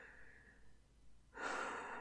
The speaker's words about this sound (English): Let me catch my breath.